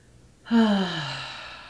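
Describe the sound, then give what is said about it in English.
A single deep exhale during guided breathing, beginning abruptly after near-silence and trailing off slowly, with a soft, breathy, sigh-like voiced tone. “And exhale out.”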